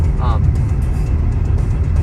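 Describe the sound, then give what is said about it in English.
A car's engine gives a loud, steady low rumble nearby as it slows, with a voice speaking over it. “Saw the car slowing down there. I got scared.”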